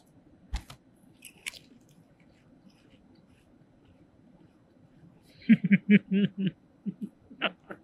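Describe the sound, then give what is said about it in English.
Crunchy chewing of Lay's Limited Edition Beef Wellington potato chips from China: a couple of faint isolated crunches early on, then a dense run of loud, crisp bites and chews near the end. “Are we going to both eat at the same time? I feel like I'm unfair with my tiny chip. All right, here we go.”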